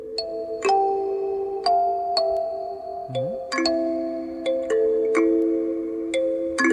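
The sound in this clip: Kalimba playing a melody: many plucked, bell-like metallic notes ring out and overlap at a slow, slightly halting pace as the tune is picked out.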